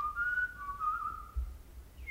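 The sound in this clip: A person whistles a short, wavering high-pitched phrase in a quiet indoor scene, soft and unaccompanied by speech.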